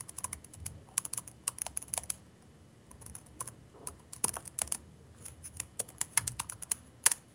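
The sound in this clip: Rapid computer keyboard typing while code is written, with many crisp, irregular keystrokes in quick bursts separated by brief pauses, heard alone with no voices.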